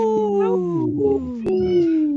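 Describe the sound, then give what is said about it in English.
A voice imitates a wolf howl: a drawn-out, tonal howl that slides steadily downward in pitch, with a brief sharp click partway through before the howl carries on. “Howling for Wolves, protecting wolves for future generations. Howl!”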